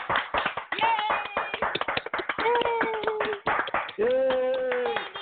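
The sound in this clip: Applause from guests on an open-mic online show for a special guest: many hands clap fast and continuously over a narrow, phone-like band, mixed with cheering voices throughout.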